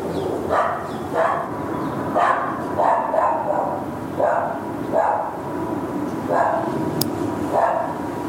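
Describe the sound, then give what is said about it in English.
A beige Staffordshire bull terrier, lost in open fields, barks repeatedly in short sharp bursts at fairly regular intervals over a steady hissing background. “I am in Greendale Fields and there is a lost dog. It is a beige staffy”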